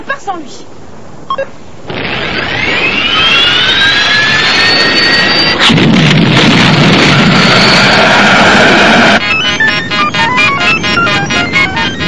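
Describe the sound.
Loud jet-like roar of an aircraft taking off: a high whine climbs and builds into a steady, powerful rushing roar. The roar broadens before ending in a rapid, rattling texture.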